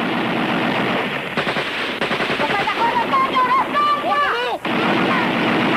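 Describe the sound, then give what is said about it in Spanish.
Police gunfire from all directions toward rooftops crackles in dense, rapid bursts of shots, loud and nearly continuous for several seconds. “La policía dispara desde todas direcciones.”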